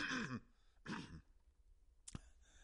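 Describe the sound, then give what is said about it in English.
Someone clears their throat at a microphone, two short, rough bursts followed by a single sharp click, all faint. “I'm getting on the microphone. I got to clear my throat. Let me clear my throat.”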